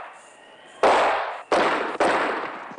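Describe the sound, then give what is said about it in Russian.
Pistol shots fired through a wall, three sharp, loud bangs in quick succession, each cracking suddenly and then trailing off in a long rumbling decay. “Стреляет сквозь стену.”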